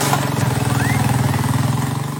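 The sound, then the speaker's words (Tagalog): A motorcycle engine powering a passenger tricycle on a flooded road runs loudly and steadily, a low, even chugging pulse that stays constant with no voices. “Not one, not two, but more passengers ang kaya iangkas ng motor na ito.”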